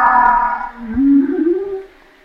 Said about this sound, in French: Ça, c'est une baleine qui parle.